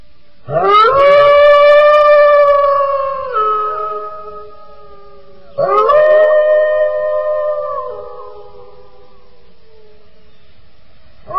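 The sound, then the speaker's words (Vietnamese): A dog howls in the distance at night, giving two long, drawn-out howls of several seconds each. Each rises at the start, holds a steady, tonal wail and then drops lower as it trails off. “Từ đằng xa không thấy dạng mà lại nghe có tiếng chó tru rống lên như đêm dài.”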